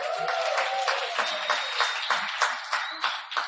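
Audience applause for Absa Bank colleagues: a steady wash of many hands clapping, with a few faint tonal streaks running through it.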